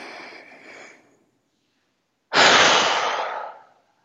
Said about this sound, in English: take a deep inhale and then drop it all and breathe.